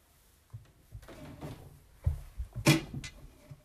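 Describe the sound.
A cupboard door is handled with a run of soft thumps and wooden knocks, then a louder, sharper click and rattle near the end, all without talk.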